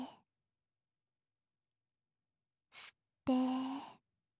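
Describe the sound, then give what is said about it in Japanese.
Deep abdominal breathing in a guided breathing exercise: a brief, airy inhale is followed by a longer, softly voiced, sighing exhale, each set apart by silence. “腹式呼吸を意識しながら深呼吸してみましょう。はい、吸って、吐いて、”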